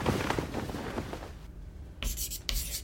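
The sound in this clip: Chalk writing on a board, a dry scratchy scraping made of quick, uneven strokes, fairly quiet, followed by a couple of short louder bursts.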